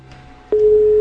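A telephone busy tone after a caller's line drops. A steady, mid-pitched tone starts abruptly halfway through and holds loud and unbroken after a faint, quiet stretch.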